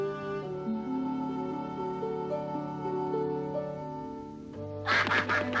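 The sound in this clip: Ducks quacking in a short harsh flurry at the very end, after a sustained, stepped instrumental melody fills most of the passage.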